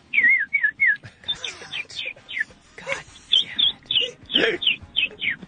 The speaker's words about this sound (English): I learned how to whistle.